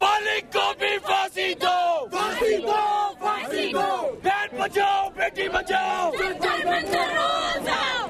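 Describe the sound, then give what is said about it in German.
Angry demonstrators shouting outside a juvenile court in New Delhi, a crowd bellowing in loud, rhythmic bursts of chanting, with brief pauses between cries. “Hängt ihn, die Forderung empörter Demonstranten vor dem Jugendgericht in Neu-Delhi klingt eindeutig.”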